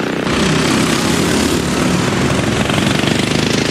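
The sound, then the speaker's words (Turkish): Racing lawn mower engines roar on a private track in East Sussex during a Le Mans-style endurance race of 30 teams, forming a loud, continuous, buzzy drone that never lets up. “Doğu Sussex'teki özel pistte 30 takım 9 saat boyunca çim biçme makineleriyle yarıştı.”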